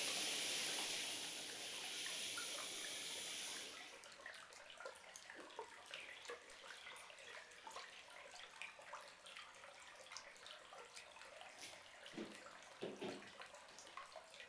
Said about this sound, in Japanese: 順番にシャワーのお湯をかけていきますね。背中もきれいに流して、